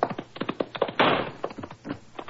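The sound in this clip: A single gunshot from a service revolver in a radio drama, one short, sharp burst in the middle of brief clipped voices and light knocks.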